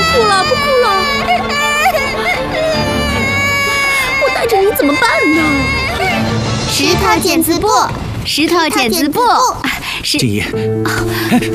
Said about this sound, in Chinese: 好了，不哭了，不哭了！